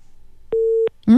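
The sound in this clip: A telephone busy tone sounds after a caller hangs up: a single steady, mid-pitched beep, followed by a voice beginning to talk.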